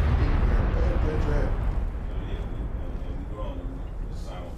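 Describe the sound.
A bomb explosion sound effect: a deep, loud boom that rolls into a rumbling low roar and slowly fades over a few seconds.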